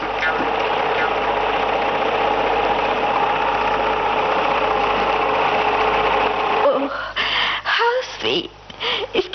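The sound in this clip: A hand-operated sewing machine runs with a steady, loud mechanical whir and rattle for about seven seconds, then stops and voices talk.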